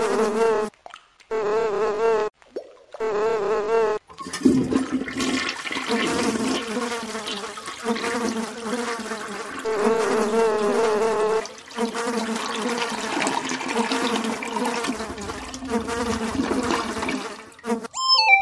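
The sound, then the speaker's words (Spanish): Houseflies buzz loudly and almost without a break, their drone wavering in pitch, with a few short gaps near the start. “Recuerden, las moscas son las moscas y seguirán siendo moscas.”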